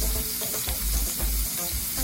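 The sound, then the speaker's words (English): Garlic sizzles in hot oil in a pan, a continuous bright crackling hiss with soft stirring taps mixed in, steady throughout and without talk. “And then I'm going to add my garlic in there, and that's going to kind of flavor my oil.”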